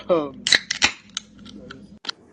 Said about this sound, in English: That sounds more like a gun. Was that you or, like, the soundboard? That was a soundboard.